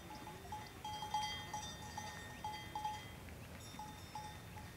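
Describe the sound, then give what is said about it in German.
Livestock bells clink and jingle as a herd is driven out to upland grassland pasture. The ringing is light, irregular and steady throughout, with no talk. “Nach dem Einräumen der Vorräte zieht Lortsche mit der Herde raus auf das Grasland der Hochebene.”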